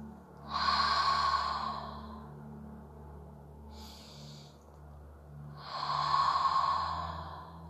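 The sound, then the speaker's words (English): A deep breath is drawn during a guided healing meditation. Two long, airy breath sounds are separated by a short, soft sniff, all quiet and unhurried, with no talking. “Take a deep breath.”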